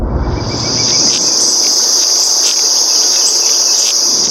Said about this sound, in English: That is the sound of an ash beetle chewing on the wood.